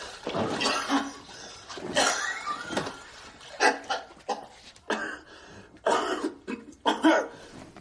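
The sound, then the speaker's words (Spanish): A harsh coughing fit with blood spat into a bathtub: many loud, ragged bursts in irregular clusters, with short pauses between them and no talk. “sufre un ataque de tos y escupe sangre en la bañera”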